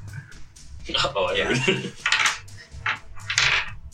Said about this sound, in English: Oh, man. That's a lot of dice.